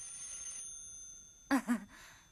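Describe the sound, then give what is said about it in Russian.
Two short bursts of a landline telephone ringing, a receiver resting on its cradle, brief and fairly faint over a thin steady background tone. “Снимает трубку с рычага телефонного аппарата.”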